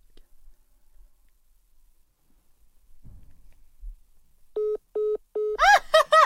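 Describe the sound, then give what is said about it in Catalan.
Phone ringtone for an incoming call: three short, steady mid-pitched beeps in an even rhythm, then a bright, rapidly warbling ring with many overtones, after a mostly quiet stretch with a few faint low knocks. “Hòstia, no em paren de trucar, porten tot el dia trucant-me de Toledo. De Toledo. Agafa-la, agafa-la, agafa-la.”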